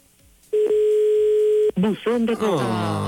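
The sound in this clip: Ringback tone on an outgoing phone call: a single steady mid-pitched tone holds for just over a second, then stops and voices start talking.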